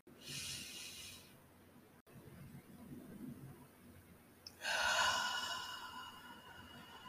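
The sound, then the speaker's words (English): Deep breathing during a guided relaxation exercise: a soft airy breath, then a quiet held pause, then a stronger, longer hissing release of air. Faint and alone, with no talk. “Let's all take a nice deep breath, count to six, hold the breath for four, and release on six.”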